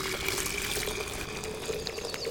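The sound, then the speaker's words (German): Water poured into freshly ground flour in a bowl, a faint, continuous trickling splash without clear breaks from start to end. “Dazu vermischen wir einfach mal frisch gemahlenes Mehl hier in dieser Schüssel mit ein wenig Wasser.”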